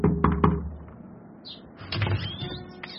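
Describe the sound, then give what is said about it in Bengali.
A few sharp raps on a door come close together at the start. Quieter scattered clicks and rattles follow. “বিধুবাবু গিয়ে দরজায় টোকা মারলেন।”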